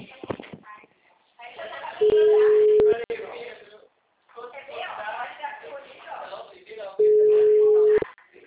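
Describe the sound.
A telephone call rings out, with two long, steady ringback tones about five seconds apart while a person talks in between.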